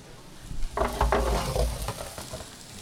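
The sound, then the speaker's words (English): Onions cooking in a pan are stirred, giving a few scraping, clattering bursts over a soft, continuous sizzle. “I'm just going to stir that around and put that back in the oven and let those onions cook until they're soft.”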